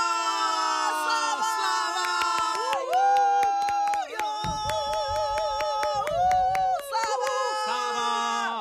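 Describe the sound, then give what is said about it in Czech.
Spectators in a stadium cheering and whooping in an ovation for a winning snail after a race, excited voices holding long tones that rise and fall in pitch, loud throughout. “Takové ovace, jaké teď nadšení diváci vítěznému hlemížďovi uspořádali, tenhle stadion nepamatoval.”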